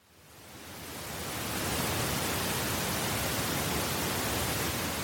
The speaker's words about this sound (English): In recent years, some car manufacturers have begun adding pink noise generators that sound like this.